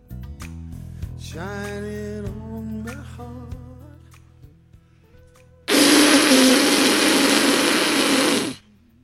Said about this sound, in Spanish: Perdonad la pedorreta.